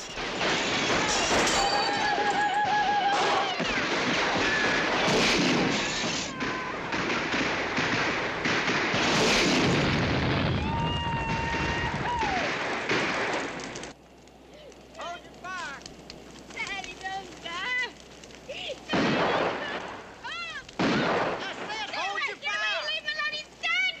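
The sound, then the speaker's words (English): Police gunfire blasts a car in a violent ambush scene. Dense, loud bursts of shots and crashing impacts pile up for about fourteen seconds, then give way to a quieter stretch with voices and a few sharp bangs. “Buck is shot as he scrambles. The cops blast the new car.”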